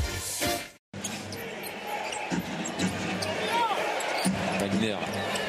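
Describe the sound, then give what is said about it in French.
A basketball is dribbled during a game, its bounces sounding over steady crowd noise while people talk. “Oh, avec un dribble, et voilà une action d'éclat, se mettre sous la dent, Maurice Wagner, dribble dans le dos, accélération, dunk.”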